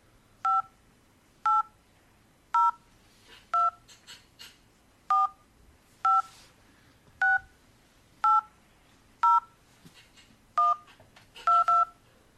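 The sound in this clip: Telephone keypad tones beep as a card number is entered during a call, many short, evenly spaced touch-tone beeps in a steady rhythm, the last two coming close together, with no talking.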